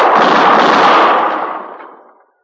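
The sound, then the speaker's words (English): A single gunshot flashing from an alley in a western drama scene: one loud, broad blast that rings on and decays steadily over about two seconds, with no voices. “I seen his gun flash.”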